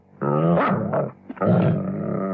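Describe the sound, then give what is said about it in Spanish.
A dangerous dog growls in a loud, rough snarl with a strong tonal edge. Two sustained bursts are broken by a brief gap and a small snort, and no voices are heard over it. “Ese perro es un animal peligroso.”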